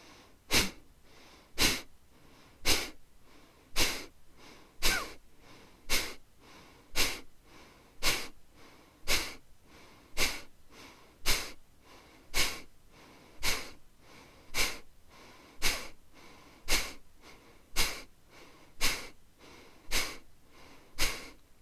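Breath of fire, a rapid forceful breathing exercise: many sharp, evenly spaced nasal exhalations of steady loudness, about one per second, each a short breathy burst with a quick decay, with no talking.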